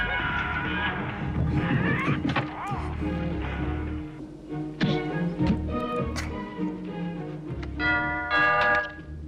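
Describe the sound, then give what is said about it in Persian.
Bell-like ringing from something calling for attention sounds in bright, sustained tonal bursts over a dense, steady background, with voices present at times. “میشه ببینی کی زنگ میزنه؟ کسی جواب نمیده.”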